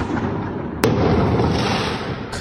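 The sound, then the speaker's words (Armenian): Fireworks exploding at night on city streets: a dense, continuous rumble of bursts with one sharp crack near the middle and another at the very end. “Սահաթաշ չէ մարտական ֆիլմից, այլ հրավառություն՝ գիշերը 1:30-ի սահմաններում, Սարյան-Պուշկին փողոցներում։”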